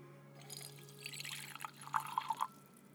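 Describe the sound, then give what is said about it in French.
Water poured into a laboratory beaker to make an agar gel. A soft trickle builds, then several brighter splashing drips come near the end. “On va remplir le bécher, ben justement pour faire cette fameuse gélose.”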